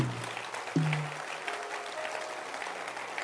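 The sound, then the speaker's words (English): A church audience claps their hands together in a dense, steady wash of applause that carries on without pause, opening with a brief low tone. “Clap your hands once again.”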